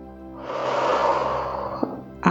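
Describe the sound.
A deep inhalation during a guided relaxation exercise: a soft, breathy hiss swells and sustains for under two seconds over a faint low hum.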